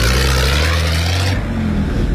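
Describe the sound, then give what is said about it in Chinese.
A car accelerates past, its loud droning engine tone holding steady and then shifting sharply about halfway through as the rush of the vehicle continues. “后边的车来了，看看。”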